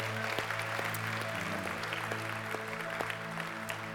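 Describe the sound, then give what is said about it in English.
A church audience applauds the worshipers and worship group during a Sunday service, a steady, dense clapping that holds at an even level throughout. “But can we thank them by just giving them a hand? Can we do that?”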